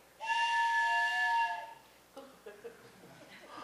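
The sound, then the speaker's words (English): A train whistle sounds in a pitch-dark rail tunnel: one sustained, steady-pitched tone lasting about a second and a half, followed by a few fainter, shorter tones. “you're in a train tunnel. That's a train whistle.”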